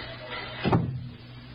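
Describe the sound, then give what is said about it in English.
A door being shut with a single short thud partway through, moderately loud over a faint steady background hiss. “Wait a minute. Close that door.”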